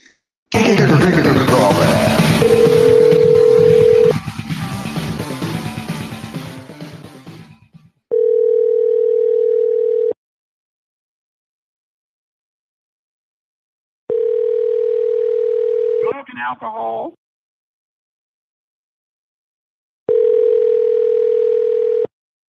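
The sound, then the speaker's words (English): Telephone line tones while a prank call is placed: a dense, mixed stretch gives way to three long, steady, mid-pitched tone bursts separated by silence, the second ending in a brief warbling trill. “Let's give him a prank phone calls.”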